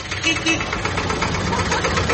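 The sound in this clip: A 56-year-old tractor's engine runs with a steady, low, rumbling chug under a man's speech.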